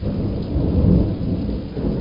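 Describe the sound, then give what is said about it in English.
Thunder rolls through an electrical storm in deep granite gorges of Montana's Beartooth Range, booming off thousand-foot walls: a steady, deep rumbling roar with a hiss of rain, without a sharp crack. “I'm caught in an epic electrical storm in deep gorges of Montana's Beartooth Range. Lightning flashes instantly deliver ground-shaking thunderclaps, crashing and booming off thousand-foot granite walls.”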